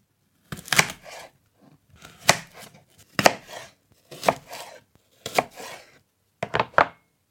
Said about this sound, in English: It sounded like maybe some cutting, like a knife and a cutting board, like slicing something.